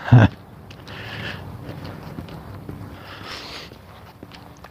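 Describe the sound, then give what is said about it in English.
Footsteps of a person walking briskly with long strides on a morning exercise walk. The steps form a steady, even run, with a loud rustle at the very start. “I got the metronome going. And I'm taking long steps. So I'm really working this morning.”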